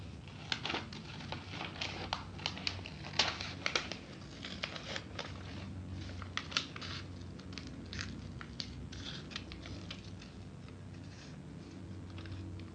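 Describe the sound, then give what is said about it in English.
Scissors cut a baby shape out of a sheet of paper: many quiet, irregular crisp snips and faint crinkles over a steady low hum. “Should I cut the paper in half? Right. Well, how about if I cut the baby out? Do you want me to cut the baby out? Right. Okay. I'll cut the baby out.”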